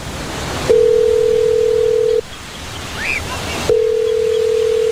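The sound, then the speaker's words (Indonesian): Telephone tone while placing a call: a steady, mid-pitched tone holds for about a second and a half, stops for a similar gap, then sounds again over a soft hissing background. “Buruan, telepon aja.”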